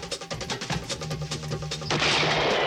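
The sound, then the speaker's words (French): A rifle shot bursts in over music driven by rhythmic drums, a sharp loud blast that leaves a wash of broad noise ringing on to the end. “Coup de fusil. Après le coup de fusil, normalement, vous reconnaissez.”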